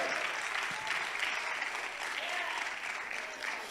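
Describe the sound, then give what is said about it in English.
A church audience clapping hands during a sermon: sustained, dense applause from many people at a steady level throughout, with a few voices mixed into the clapping. “Somebody clap your hands and say, I'm over it.”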